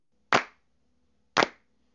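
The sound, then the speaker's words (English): Two crisp, isolated hand claps about a second apart, as a performer on stage starts a slow beat for the audience to clap along to. Each clap is sharp and quickly decays into near silence. “I want everyone to start clapping. Everybody, come on. Follow me.”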